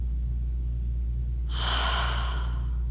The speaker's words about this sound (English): Inhale with me. My body deserves rest.